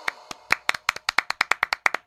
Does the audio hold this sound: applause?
yes